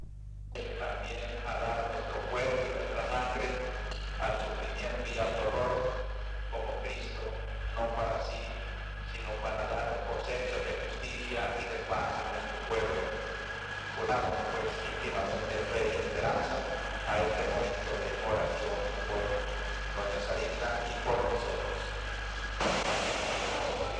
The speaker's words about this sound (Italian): Sembra impossibile, è questo. Questo è stato il colpo assassino che ha fatto seguito alle parole di